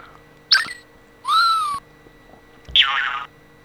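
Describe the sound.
A whistle sound effect, pitch-altered by a modified oscillator: a short tonal whistle that bends in pitch, between a brief sharp sound before it and a noisy burst after it.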